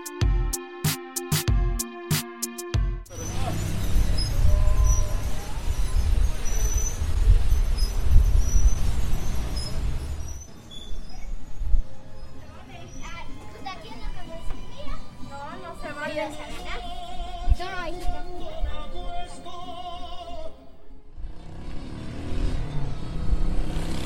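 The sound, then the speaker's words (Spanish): Town street soundscape in San Francisco with a motorcycle, a car and a tortilla shop: a rumbling engine stretch, then clattering, machinery-like sounds and background chatter, with people talking throughout. “Vamos a escuchar los sonidos de San Francisco: moto, carro, la tortillería y una hora.”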